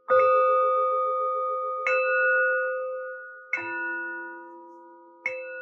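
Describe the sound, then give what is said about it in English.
Tibetan singing bowls struck four times at a steady pace. Each strike leaves a bright, sustained metallic tone with layered overtones that slowly fades before the next. “What you heard were Tibetan singing bowls.”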